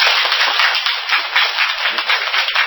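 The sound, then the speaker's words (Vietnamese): Applause from an audience at a Buddhist dharma talk: a dense, muffled wash of clapping that runs steadily throughout without voices. “Được thì cho Diệu Long chào pháo tay đi.”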